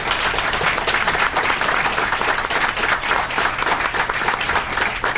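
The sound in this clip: Loud, thick audience applause welcoming a police chief as a speaker, with many hands clapping in a continuous, steady roar that holds its level from start to finish.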